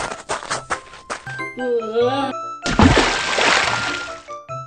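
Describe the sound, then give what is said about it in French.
Water splashes in a video game featuring Link, a bright, noisy burst of spray lasting over a second, set among clicks, chiming tones and melodic game notes. “Putain, qui c'est qui a mis de l'eau ici?”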